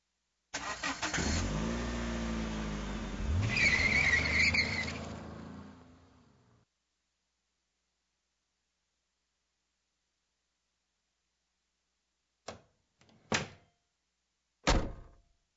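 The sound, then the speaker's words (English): A car engine cranks and runs for about six seconds with a rough, wavering roar, then cuts to silence, followed by a few short, sharp door thuds spaced a second or so apart. “Hey, Mom, can I borrow the car tonight?”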